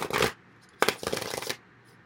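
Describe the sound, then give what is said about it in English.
Tarot cards being shuffled and drawn, heard as two quiet papery riffling bursts, the second longer than the first, with no talk. “Okay, so let me get additional cards.”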